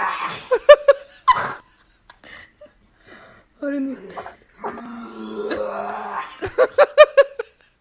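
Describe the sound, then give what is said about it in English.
Dog making an unusual noise: bursts of short, rapid, yelping pulses at the start and end, with warbling, groaning tones in between. “I didn't know dogs could do that.”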